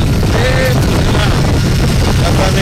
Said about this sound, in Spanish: Se preguntarán por qué se escucha así. Él va en moto, va en casco, va con... con su visera y tal, y por eso se escucha de esta forma.